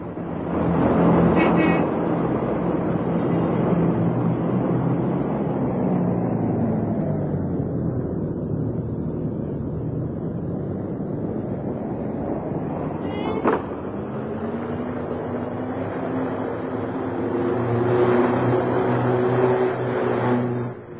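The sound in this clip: Street traffic rumbling steadily, a dense low roar of passing vehicles that swells and eases, with a brief sharp transient near the middle.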